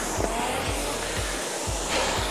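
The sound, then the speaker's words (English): Rowing machine flywheel whirring in a steady, airy whoosh, with five regular low pulses about twice a second from the strokes. “And it's exactly the same here on the rowing machine.”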